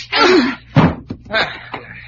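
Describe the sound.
A punch knocking a man out: a few sharp, heavy thuds mixed with strained vocal grunts and exclamations, loud and abrupt, over a short tussle.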